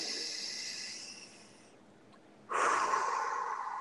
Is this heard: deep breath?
yes

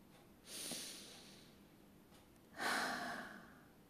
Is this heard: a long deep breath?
yes

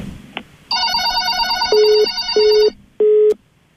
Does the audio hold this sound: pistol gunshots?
no

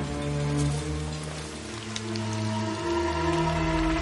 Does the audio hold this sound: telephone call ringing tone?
no

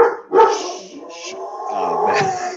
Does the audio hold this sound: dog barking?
yes

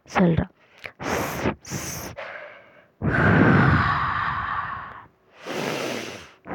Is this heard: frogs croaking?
no

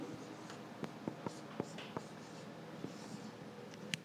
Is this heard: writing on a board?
yes

